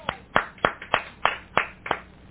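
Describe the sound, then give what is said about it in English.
Church audience clapping hands in praise: a steady run of sharp, evenly spaced claps, moderately loud and alone with no talk. “Give my hand a clap of praise.”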